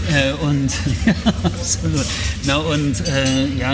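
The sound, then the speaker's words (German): Dishes and cutlery clink and clatter in a restaurant, with other guests in the background. The light, sharp clinks come at irregular moments beneath people talking close by. “Klappert es halt ein bisschen und man hört auch andere Gäste im Hintergrund.”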